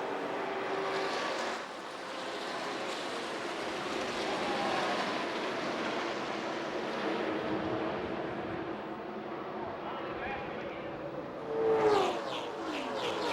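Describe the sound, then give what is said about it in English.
Stock cars roar at the green flag of the 1998 Daytona 500, NASCAR's 50th anniversary season. A continuous, fairly faint engine roar swells near the end. “The race went green. The 50th anniversary season of NASCAR, the 40th Daytona 500, is underway.”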